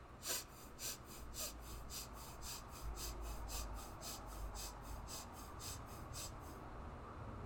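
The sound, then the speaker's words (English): Breath of Fire, rapid equal inhales and exhales through the nose, comes as many quick, evenly spaced hissing pulses in a steady rhythm that continue for several seconds before stopping near the end, with no talk. “We're really focusing on this quick inhale, exhale, equal rhythmic motion of the breath from the nose to that solar plexus navel area. So it'll sound something like this.”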